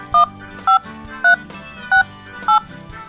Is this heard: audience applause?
no